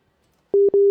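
A telephone busy signal from a broken call connection: after a moment of silence, a loud single-pitched tone starts, breaks off briefly, then resumes.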